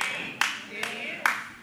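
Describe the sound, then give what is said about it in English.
Quiet golf claps, three sharp, isolated hand claps spaced evenly apart, each ringing out briefly before fading. “There's my two golf claps of praise this morning.”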